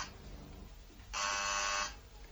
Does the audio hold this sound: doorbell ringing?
yes